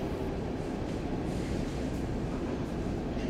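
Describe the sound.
An underground metro train running, heard as a dense, steady low rumble that holds evenly throughout, quiet and free of talk.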